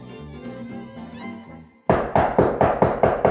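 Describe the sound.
Knocking on a door in a house: a rapid, evenly spaced series of sharp, hollow knocks that starts abruptly as a passage of music fades out just before it.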